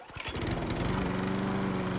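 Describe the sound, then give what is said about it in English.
Engine drone of a Country Clipper zero-turn riding lawn mower. It builds quickly over the first moment, then holds a loud, steady, low rumbling hum with no talk. “When it comes to mowing, why spend your weekend riding in circles? Step up to a Country Clipper zero-turn mower from Chanson Brothers”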